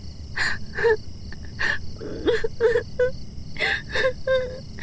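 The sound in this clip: A young woman crying, with many breathy sobs, gasps and high wavering whimpers coming in uneven bursts over a low background hiss.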